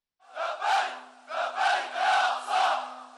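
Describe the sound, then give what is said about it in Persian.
A crowd of Hamas supporters chants at a protest in Gaza City against the US president's recognition of Jerusalem as Israel's capital. Loud shouted slogans come in repeated swelling bursts over a steady low hum. “صدها تن از حامیان گروه حماس به روز جمعه در شهر غزه در مخالفت با این تصمیم رئیس جمهور ایالات متحده دست به تظاهرات زدند.”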